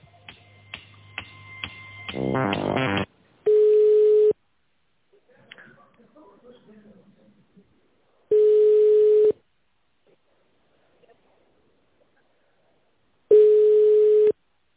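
A telephone ringback tone plays while a call is transferred: a quick burst of dialing beeps, then three steady, one-second tones spaced about five seconds apart, with near silence between them.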